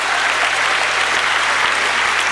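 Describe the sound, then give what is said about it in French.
Audience applause for three guests: a dense, steady wash of many hands clapping that holds an even loudness throughout, with no voices over it. “Ah, je crois qu'on peut applaudir nos trois invités ce soir.”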